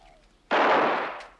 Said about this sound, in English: One of the men fires off his gun into the distance, making Kit flinch.